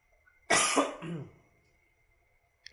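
A single harsh cough from someone with a fever and a lingering cough, bursting out and trailing into a raspy throat-clearing rumble, followed by near silence.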